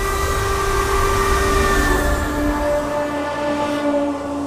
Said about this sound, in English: check out that freaky freight train.